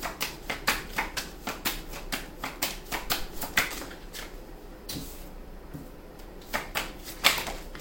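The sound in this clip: Tarot cards being shuffled and drawn give a run of crisp clicks and sharp flicking snaps at an uneven pace, with a quieter stretch in the middle before a few more snaps.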